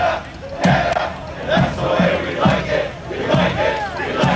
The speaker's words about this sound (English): Dressed in Canadian jerseys, scarves, hats, flags, and more, marching from Trinity Bellwoods Park all the way to Toronto Stadium, making noise every step of the way.